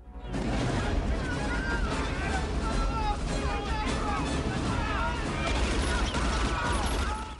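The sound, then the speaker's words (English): Gunfire in a war film scene as a soldier guns down villagers fleeing a burning village: a dense, continuous clatter of shots blended with crowd noise and shouting, loud and sustained throughout. “A soldier steps out behind them and guns them down.”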